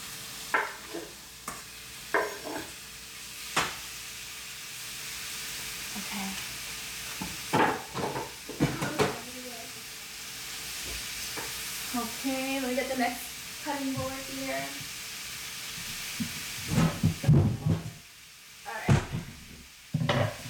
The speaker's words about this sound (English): So I'm going to go ahead and put the meat in.